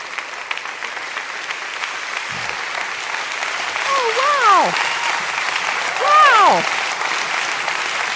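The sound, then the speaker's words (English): An audience applauding a guest at an interview: dense, steady clapping fills about eight seconds and swells slightly in the second half, with two brief rising-and-falling whoops from the crowd. “I am certain that a lot of that applause was for my husband of 35 years.”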